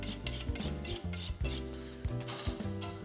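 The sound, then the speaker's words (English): A sharp knife cuts andouille sausage in half and then into slices, giving a series of crisp, fairly loud cutting knocks at an irregular rhythm, with a low steady hum underneath. “So then we're just gonna cut that in half. then we're just gonna cut that one in half. And then we're just gonna make some slices.”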